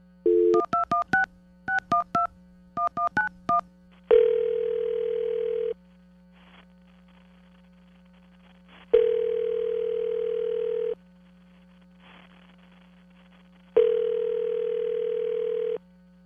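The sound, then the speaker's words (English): A telephone is dialed with keypad touch tones, a rapid string of beeps in three short groups. Three long, steady tones follow, evenly spaced with pauses between them, loud and clear with no voices. “All right, let's dial her back.”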